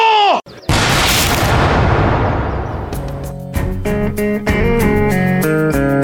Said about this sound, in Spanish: ¡Preparen! ¡Muero por defender los derechos de mi patria! ¡Apunten! ¡Fuego!